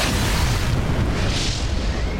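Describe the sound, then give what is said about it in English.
A loud, deep explosion as an incoming missile strikes a helicopter: a dense, sustained roar of booming rumble with a broad hiss on top, holding steady without a break through the whole stretch. “What the bloody hell is that? Incoming missile! Hang on!”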